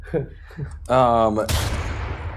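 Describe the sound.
A single gunshot in a video game: a sharp, loud burst of noise with a decaying tail, following brief talk and a short tonal sound.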